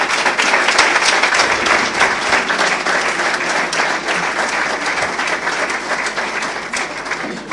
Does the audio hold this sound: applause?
yes